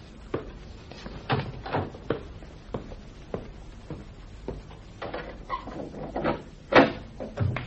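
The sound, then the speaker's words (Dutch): A door being opened at home: a scattered series of sharp knocks and clicks from handling the door, with one louder thump near the end and no talk. “Ik zal wel even open doen.”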